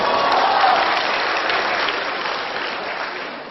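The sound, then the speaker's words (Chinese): A crowd claps in sustained, dense applause at a lively event. The clapping stays strong and even, then thins slightly toward the end. “对，掌声”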